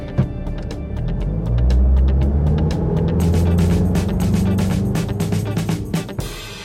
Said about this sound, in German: Los, los, gib Gas.